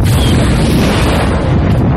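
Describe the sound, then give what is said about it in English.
A plasma blast strikes a starship as an explosion effect: a loud, deep, continuous rumbling roar that fills the whole clip without letting up. “A blast of plasma from the frigate analog hit the center of the record time. The ripple from the impact shook the length of the ship.”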